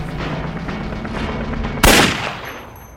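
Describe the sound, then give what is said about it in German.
A single loud pistol shot cracks out over a steady background noise, then fades in a short, rough tail. “Sabine hebt die Pistole und zielt auf ihn.”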